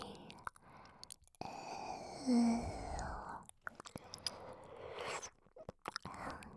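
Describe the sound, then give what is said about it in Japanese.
Close-up wet licking and light biting mouth sounds, soft and intimate, with many small smacks and clicks over a breathy, whisper-like texture. “念入りにペロペロして、口に沿って舐めたり、”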